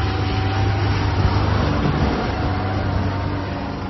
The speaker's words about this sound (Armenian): Մեր նկարահանման պահին, սակայն, շինհրապարակներից մեկից դուրս եկող բեռնատարը փոշին իր հետևից տարածեց ամբողջ ճանապարով։